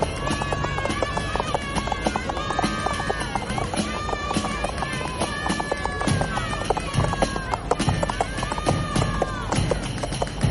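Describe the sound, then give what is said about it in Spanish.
Hooves of horses ridden at a run across open countryside, many rapid clattering beats in a steady, dense stream, mixed with a continuous layer of tonal sound throughout. “Al poco, Sancho y su amo se encuentran cabalgando por el campo.”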